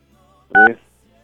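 A phone keypad tone sounds as a number is dialed to call someone on his birthday: a single short, clear touch-tone beep against near silence.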